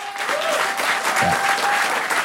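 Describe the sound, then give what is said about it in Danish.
Audience applause given as a vote on a score during a Danish comedy show, a short burst of steady, dense clapping at even loudness throughout. “Vi bliver nødt til at afgøre den via applaus. Yeah. Hvor mange synes, den skal have en 9'er-klap?”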